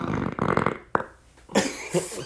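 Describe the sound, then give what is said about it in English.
A person lets out a burp, a rough, low belch among a few other short throaty noises, with no talking. “that was a burp, guys.”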